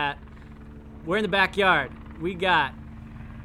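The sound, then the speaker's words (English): A police helicopter flies over a Los Angeles backyard, a steady low droning rumble that runs through the whole clip beneath people talking. “Can you hear that? That's the sound of your friendly neighborhood GB, not Great Britain Ghetto Bird.”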